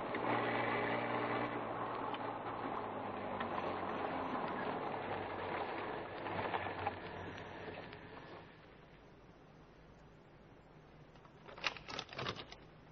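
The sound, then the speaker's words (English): A dark sedan's engine drones steadily on a road, then the sound drops noticeably as the car slows, leaving a quieter hum with a brief rattling burst near the end. “The casual passerby would have noticed a dark sedan slowing down beside a thick-set man in overalls.”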